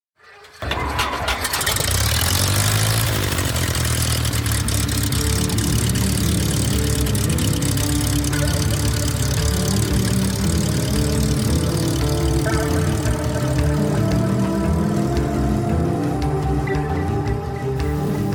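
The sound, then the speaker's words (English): A propeller aircraft engine cranks and catches within the first second, then runs at a loud, steady idle with a low, throbbing drone that continues unchanged to the end. “Hop aboard my flying carpet. Buckle your seatbelts and prepare for takeoff on flight number one of the Flying Carpet Podcast. Clear prop.”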